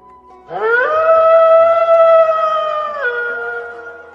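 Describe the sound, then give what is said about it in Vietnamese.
A black wolf gives one loud, sustained howl. The pitch rises quickly at the start, holds as a steady mournful tone for a few seconds, then drops and fades. “Sói đen gào thét, toàn thân rung động, hung hãn không thôi.”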